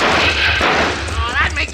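Gunshots fired by bandits ring out as a few loud, sharp reports buried in a dense, rough burst of noise that stays loud and fairly steady throughout.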